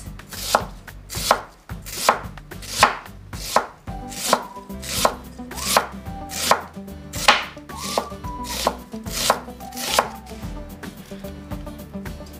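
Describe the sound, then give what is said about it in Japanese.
A knife thinly slices a small piece of onion for a salad. Many crisp, evenly spaced strokes follow one another in a steady, brisk rhythm, with no speech. “それから玉ねぎを少しスライスしましょう。”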